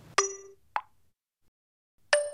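A mobile phone sounds its notification tones at night. Two bright, ringing dings with long shimmering decays frame a shorter, softer plop, with near silence between them.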